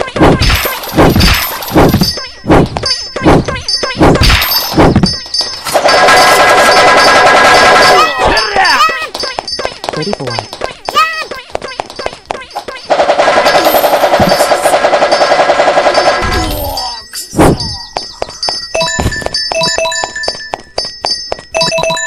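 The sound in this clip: Video game gunfire: sharp single shots crack out first, then two long, loud, dense bursts of rapid automatic fire, separated by a stretch of bright tonal game effects, with more scattered shots near the end.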